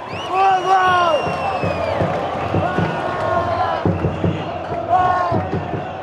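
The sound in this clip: Stadium fans chant and cheer in a loud, surging mass of voices with rising shouted calls and a repeated heavy thumping beat under it, swelling and dipping across several seconds.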